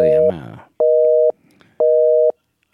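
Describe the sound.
A telephone busy signal sounds on a line engaged in another call: a steady mid-pitched tone in an even on-off pattern, about three bursts, with a voice briefly over the first.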